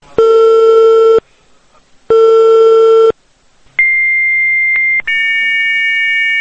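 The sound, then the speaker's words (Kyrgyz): A telephone busy signal sounds on repeated calls to an unanswered number: two long, steady, identical beeps of about a second each, separated by gaps, then a higher-pitched tone that runs on with one brief break. “Ал айткан 5961-47 сандагы телефонго улам-улам чалып, эч кандай жооп ала алган жокпуз.”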